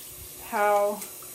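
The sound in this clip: A child washes his hands at a running sink. Water hisses steadily throughout, and a brief voiced sound rises over it partway through.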